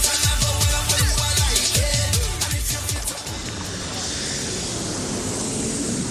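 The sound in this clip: An airplane landing sound effect: a brief voice at the start gives way to a loud, broad, steady rushing roar of the aircraft that fills the last three seconds.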